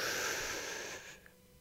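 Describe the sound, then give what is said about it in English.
A single deep breath drawn in during a guided breathing exercise: a steady, airy rush of inhaled air lasting about a second, then fading to near silence. “take the deepest breath you can and hold it at the foundation of your lungs for just a second. One, two, three. Inhale.”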